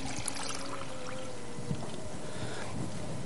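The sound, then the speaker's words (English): A sugar-free drink is poured out in a soft, continuous splashing stream, faint and steady, with no voices over it. “Now, if I was to pour this out,”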